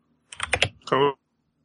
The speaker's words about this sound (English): I had to type something. I started typing right as you're like, and go.